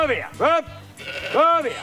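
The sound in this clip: Sheep bleat while grazing beneath the solar panels of a solar park. A few loud, wavering bleats follow close together in quick succession.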